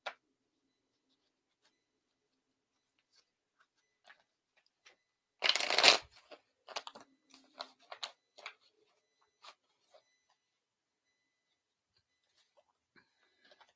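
Tarot cards are shuffled for a card pull. After a quiet start, one short, crisp riffling burst comes, then a scattering of faint taps and flicks as the cards are handled. Long quiet stretches fall in between.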